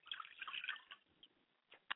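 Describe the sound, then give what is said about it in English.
Liquid poured as a libation in a ritual makes a faint, short trickle and splash, followed by a few separate soft drips. “I pour libation for my baba, Obatala, Ashe.”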